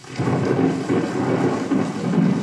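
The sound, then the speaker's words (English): Thunder and rain from the Great Plains, played as a recording in a museum exhibition hall: a continuous deep rumble with a steady wash of rain, loud and unbroken throughout, with no voices. “Enter the Hall of North American Indian at the Peabody Museum, and you're greeted by a recording of thunder and rain from the Great Plains”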